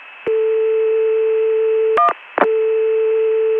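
A PBX telephone line plays a steady dial tone, broken by two short dialing tone bursts. After a brief silence the dial tone returns and holds to the end.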